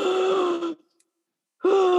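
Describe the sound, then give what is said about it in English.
A person's voice imitates loud breathing through an oxygen mask clipped to full firefighter gear: two long, rough, voiced breaths separated by a short silent pause. “like this loud breathing.”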